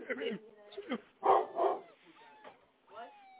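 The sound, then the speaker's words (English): A dog barks in short bursts, several sharp woofs mixed in with a man's talk as he scolds and praises the dog indoors. “Y'all be letting these dogs get away too much. You're a good boy.”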